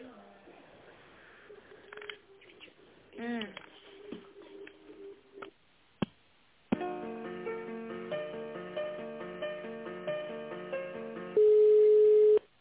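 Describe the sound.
Telephone line sounds play while an office call is transferred to the chief accountant: brief talk and clicks, then a run of steady stepped tones, ending in a loud sustained tone.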